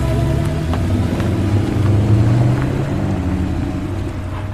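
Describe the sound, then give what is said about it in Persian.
A Porsche convertible with its roof closed drives out of a yard, giving a loud, steady low engine rumble that holds evenly from start to finish with no voices. “سوار میشه، سقف پرشه رو میبنده، از حیات میرن بیرون.”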